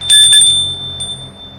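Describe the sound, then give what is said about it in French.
Doorbell ringing at a house: two quick, bright, high-pitched rings, then a thin lingering tone that slowly fades, with no talk. “Il sonne chez Gilles.”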